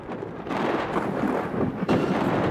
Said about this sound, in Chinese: 顷刻间天空雷声大作，电光频闪，一阵强降雨夹杂着冰雹倾泻而下。